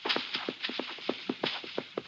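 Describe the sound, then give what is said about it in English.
Horse hooves clip-clop somewhere ahead on a path at altitude, with many even, steady hoof beats in a brisk, regular rhythm and no voices. “Hey, a horse. Ahead of me somewhere.”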